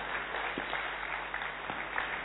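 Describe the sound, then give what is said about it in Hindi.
Audience applause after a lecture, a continuous wash of many hands clapping at an even, moderate level, with a few sharper claps standing out. “सभी बजा रहे हैं माना तालियां.”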